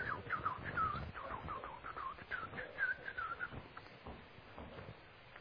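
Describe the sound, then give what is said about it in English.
A person whistles in imitation of a bird's song: a run of short, chirping, warbling notes in a fairly high register with quick slides between pitches, at moderate level over a faint low rumble. “Have you ever seen a bird sing that song? That bird said,”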